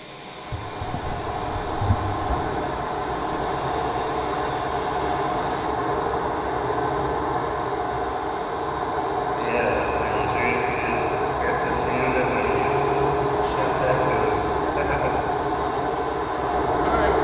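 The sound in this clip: A shop vac vacuum cleaner runs with a steady, loud roar that holds unbroken throughout, with a thin whine rising over it partway through.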